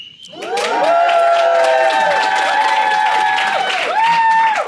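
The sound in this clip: A live studio audience cheers at a camp event in the Rocky Mountains, many voices rising together after a brief quiet start and holding a loud, steady roar of shouts and whoops to the end.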